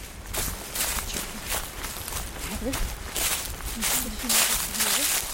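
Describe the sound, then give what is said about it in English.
Footsteps of people hiking through a forest in New Brunswick, a loose series of soft, crunchy steps on the forest floor, with muffled voices and a few faint chirps mixed in. “We're hiking in the forest”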